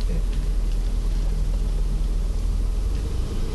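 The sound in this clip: Steady, loud engine and road rumble from inside a car as it pulls over to the curb on a New York street, a continuous low drone with no breaks.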